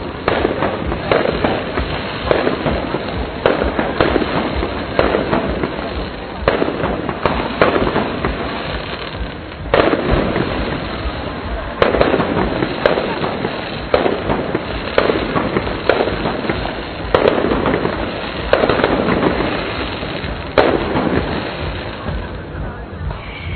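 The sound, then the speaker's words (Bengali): Fireworks crackle and bang at night over a crowded Olympic park during a Bengali New Year fair in Sydney, with many sharp bursts and pops over a constant noisy background. “সারা প্রাঙ্গণ জুড়ে অজস্র মানুষের ভিড়, আর fire work শুরু হয়েছে।”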